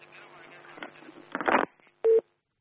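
A telephone call connects on a radio call-in line: muffled, crackly sound and a short noisy burst give way to a single brief, clear electronic beep, then silence.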